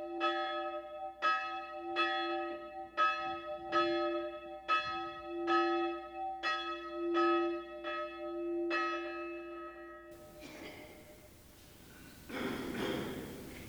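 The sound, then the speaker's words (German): A church passing bell tolls for the dead with many slow, evenly spaced strikes, each a bright metallic ring. The strikes stop and give way to a rough, hissing burst of noise at the end. “the passing bell knells for old Laszlo Bozo, dead for 3 days.”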